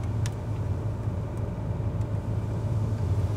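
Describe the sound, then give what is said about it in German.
A car driving slowly along a road in Sweden, giving a steady, low engine and tyre rumble that stays even throughout with no clear acceleration. “Jetzt geht's zu unserem ersten Campingplatz. In Schweden fährt man langsam.”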